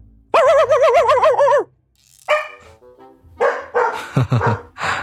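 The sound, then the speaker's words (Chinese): A household dog gives a long, wavering, high yelp, then a few shorter, sharper barks after a pause, loud and with no one talking over it. “听到我家狗叫了吧？”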